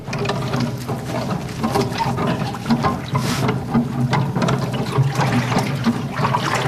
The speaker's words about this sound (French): Donc c'est une grande pale en bois en fait, plongée dans l'eau.